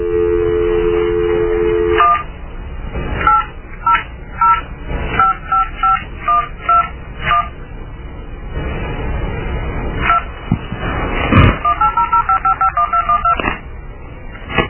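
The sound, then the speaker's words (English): Telephone keypad dialing tones on a phone line: a steady tone opens, then many short, crisp beeps of varying pitch in two quick runs separated by a brief pause. “completely insert your card or dial the number you are calling.”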